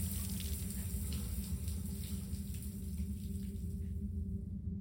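Tap water running steadily while a bloody razor is rinsed off, a continuous, even hiss and splash at low level with no talk and no breaks.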